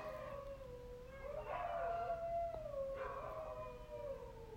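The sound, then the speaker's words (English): A neighbour's dogs howl in one long, sustained, wavering cry that stays fairly loud throughout, its pitch wobbling and swelling with a second overlapping howl, over a low steady background hum. “that's my neighbor's dogs making noise in the back because they have chickens back there, and I think the chickens be picking with the dogs.”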